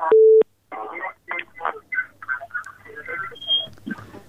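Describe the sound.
A single short telephone beep marks a listener's call being put through to a radio program, followed by continuous talk over a faint low hum.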